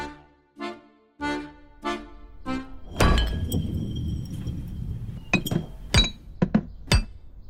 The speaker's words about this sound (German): Lina auf, denn die Flasche war vom Tisch gekippt und ihr zuerst aufs Knie und dann auf den Bauch gefallen